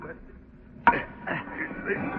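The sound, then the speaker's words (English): A lid pried off as a radio drama sound effect: one sharp crack, followed by a strained creak while voices speak. “Now, you shove on that side, and I'll pull on with this. Yes. There. That ought to fetch the lid off.”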